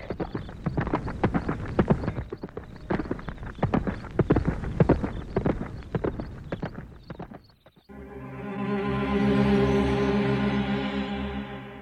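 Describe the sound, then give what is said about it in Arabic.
A horse's hooves clip-clop in a steady, brisk rhythm of many beats for about eight seconds, then stop as a sustained humming tone takes over. “هيا هيا أيها الحصان، انطلق بنا إلى حيث نحن.”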